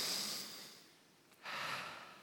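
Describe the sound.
A person takes one audible breath: a soft, airy rush of air that fades, then a sharper, louder intake of air that holds steady to the end.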